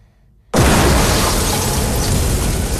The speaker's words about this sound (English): An explosion behind Peters causes showers of sparks to rain down on her.